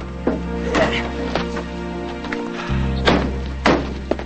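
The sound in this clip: Pickup truck doors thunk and slam shut: several dull, heavy thuds at irregular intervals over a low, steady hum.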